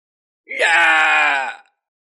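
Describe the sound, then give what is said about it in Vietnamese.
A man screams in terror, an audiobook sound effect for a fantasy tale set in an underground palace: one sustained, anguished cry of about a second that starts abruptly and fades out, alone against silence. “Đột nhiên một vị nửa bước đại năng của Tiêu gia kêu lên thảm thiết, tràn ngập hoảng sợ.”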